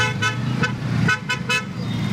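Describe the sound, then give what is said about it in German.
Car horns honk in heavy traffic chaos around a summit with many heads of state. A few short, bright toots stand out over a steady low rumble of road traffic. “Sicher ist bei diesem Gipfel nur, viele Staatschefs bringen großes Verkehrschaos.”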